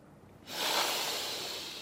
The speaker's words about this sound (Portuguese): Inspire, expire lentamente